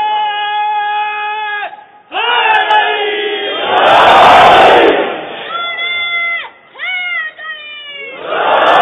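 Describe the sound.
A crowd at a religious gathering shouts a slogan together: a single voice intones first, then a massed roar of many voices swells loudly in the middle before further calls.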